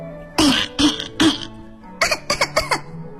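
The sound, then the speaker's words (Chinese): Coughing as people choke on thick smoke while driving and standing beside a fire engine: three separate harsh coughs, then a quicker run of several more, loud and dry against a quiet background. “正在驾驶消防车的大白鹅和拿着消防水管在消防车旁边的小石头被浓烟呛得直咳嗽。”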